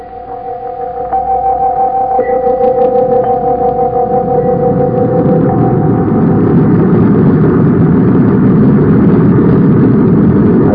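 Deep rocket-engine roar of a spaceship blasting off for Mars: a low, rumbling drone that swells over the first second or so, then holds loud and steady, with a sustained tonal hum riding on top early on.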